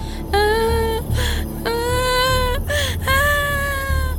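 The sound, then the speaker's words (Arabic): A child crying in a few drawn-out, high-pitched wailing sobs, each starting with a sharp rise and then holding a strained, tonal cry, separated by short breaths. “شو بكي يا حلوي؟ لسه رجلك عم تجعيك؟ لك ليش عم تبكي؟”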